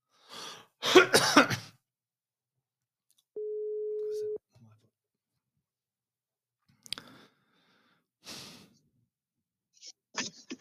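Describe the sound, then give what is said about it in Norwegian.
An outgoing telephone call rings out with one steady, low ringback beep about a second long. Throat clearing and vocal sounds come before it, and short vocal noises follow. “Nå skal jeg ringe henne.”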